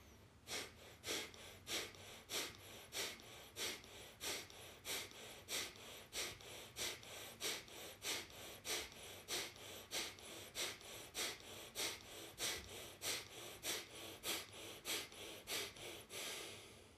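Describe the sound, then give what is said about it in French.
Rapid forced exhalations of Kapalabhati yoga breathing: many short, sharp nasal puffs in a steady, even rhythm, each a brief breathy burst, continuing without pause for the whole stretch with no talking. “Et on va faire un cycle de Kapalabhati, 10 à 20 expirations.”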